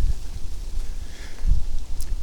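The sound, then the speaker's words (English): Wind blows outdoors on a breezy day as a steady rushing hiss, with low, gusty buffets hitting the microphone now and then. “It's kind of breezy out here, but yeah. Now I'm just in the wind.”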